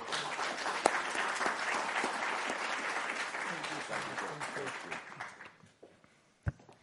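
An audience applauds to welcome Georgia's Minister of Defense with sustained, dense clapping that thins and fades out, followed by a single sharp knock near the end.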